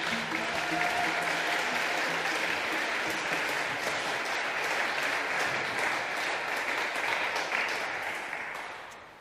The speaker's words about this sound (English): So will you please put your hands together to welcome Leroy Logan and Natasha Beckles.